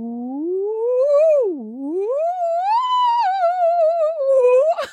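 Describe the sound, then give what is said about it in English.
A voice imitates a theremin with one smooth, sustained gliding tone. It rises, dips sharply, climbs again, then wavers with vibrato while drifting slightly lower, with no talk. “Do you want to try and guide your hand to make me make a noise as a theremin?”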